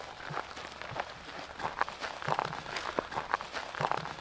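Footsteps walking over ground toward the edge of a draw near a grazing herd, a steady series of soft, evenly spaced steps over a faint outdoor hiss.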